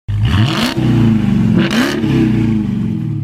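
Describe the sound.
A V8 engine revving as a sound effect, two loud roaring surges whose pitch climbs sharply, then settles into a steady idle.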